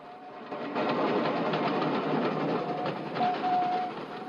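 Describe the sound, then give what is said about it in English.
A steam train streaks past, a fairly loud, steady rush of rattling and rapid rhythmic chuffing that swells after the first half second and holds to the end. “the children watch the train streak past, steam gushing from its funnel. The train glides off.”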